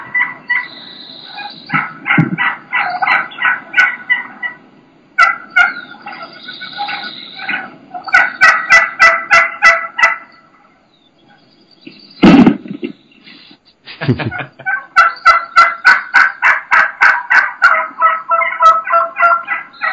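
Wild turkeys attacking plastic decoys: several runs of rapid, rhythmic pulses of thumping and flapping, separated by short pauses, mixed with turkey gobbling calls and a few sharper knocks.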